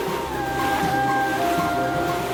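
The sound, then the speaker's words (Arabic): Wind and waves of a violent storm at sea around a sailing ship, forming a steady, continuous roaring wash with no distinct breaks. “العاصفة شديدة، ثارت العاصفة في غير وقتها.”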